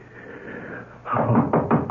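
Knocking at a door in a radio drama: a run of several firm, hollow knocks in quick, fairly even succession, with no voices over them.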